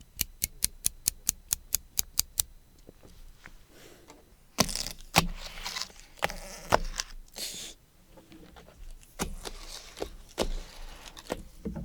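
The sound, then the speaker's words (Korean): A utility knife opening a package: a rapid, even run of sharp ticks as the blade clicks out, then scratchy slicing strokes and cracks as tape and cardboard are cut, with no talking. “이걸 뜯어볼게요. 커터칼.”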